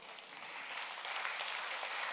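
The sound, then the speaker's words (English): Church audience applause, a steady wash of many hands clapping at once, fairly faint and even throughout, with no individual claps standing out and no talking. “I think that deserves a greater round of applause than that.”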